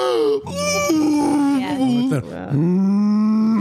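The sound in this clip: A human voice imitates a deer or moose call with a drawn-out, groaning moan, then a brief break and a second low, sustained moan, both loud and harsh.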